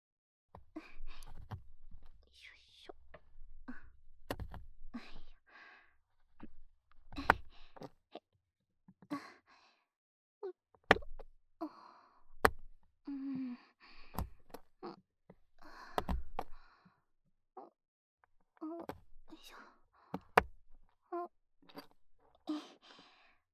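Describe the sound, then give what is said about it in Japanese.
A knife chops food on a kitchen board in many sharp, irregular strikes, some louder and some softer, with short pauses between runs of cutting. “よし、どんどん刻むぞ。”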